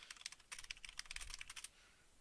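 Typing on a computer keyboard, many quick, crisp key clicks in an irregular patter, quiet overall, with the clicking thinning out near the end.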